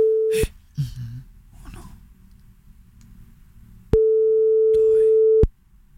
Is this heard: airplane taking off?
no